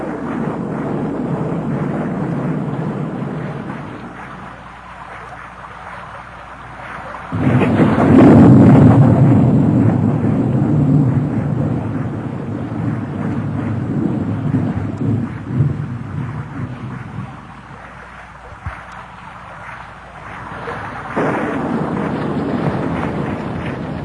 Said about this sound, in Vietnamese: Càng lúc tiếng lộp độp càng mau hơn. Thỉnh thoảng vẫn có những làn chớp lóa mắt, kèm theo những tiếng nổ lúc xa lúc gần.